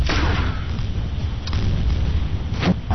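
Mortar explosions in a video game battle: low, muffled booms and rumbling thuds over a constant heavy din, with a few sharper blasts standing out.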